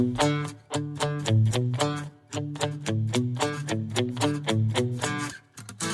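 A Latin pop track plays on the radio, with steady, punchy rhythmic chords over a solid bass line and short breaks between phrases.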